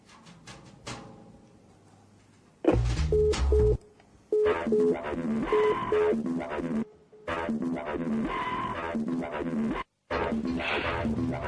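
Telephone tones as a call is placed: short, evenly repeated beeps come in bursts over a dense, loud, noisy background, broken by a few brief gaps.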